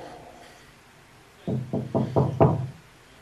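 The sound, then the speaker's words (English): Knocking on a wall: five sharp, hollow knocks in a quick, even series, loud and alone against a faint, quiet background. “I'm knocking on the wall.”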